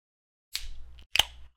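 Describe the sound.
Cracking open a beer can gives two sharp bursts, each trailing off into a short fizzing hiss. No other sounds are heard.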